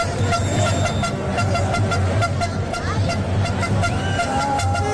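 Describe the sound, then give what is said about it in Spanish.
Car horns honk across the streets of Badajoz in a celebration of Spain's World Cup victory, forming a dense, continuous din of overlapping honks and toots with crowd voices underneath. “El sonido de los claxones de los vehículos no cesaron por toda la ciudad,”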